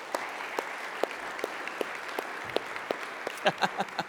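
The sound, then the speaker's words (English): A church audience applauds to welcome a guest speaker at Peace Church, a steady wash of many hands clapping with a few sharper, louder claps standing out near the end. “So let's give him a warm Peace Church welcome.”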